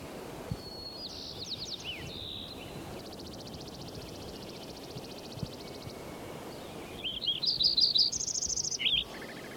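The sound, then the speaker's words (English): Sparrow chirping in two bursts of quick, high chirps, a short cluster early on and a louder run near the end, separated by a quiet stretch over a faint low rumble. “Like it's sparrow number 5 again.”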